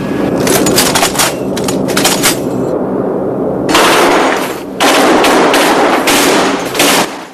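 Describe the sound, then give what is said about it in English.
Loud rapid bursts of aircraft machine-gun fire during a test firing, several crackling volleys with one short pause midway, over a steady low engine drone. “Okay, let's test our guns.”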